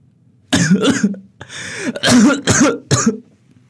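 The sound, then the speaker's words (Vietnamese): A man coughs in an angry fit: a rapid run of harsh, rasping bursts in quick succession with short gaps between them, loud and with no talk. “Bố tôi giận quá, lại lên cơn ho khủ khủ.”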